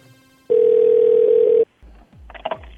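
A steady telephone tone after a number is dialed: one loud, continuous, even-pitched tone lasting a little over a second, followed by a few faint clicks and soft handling noises.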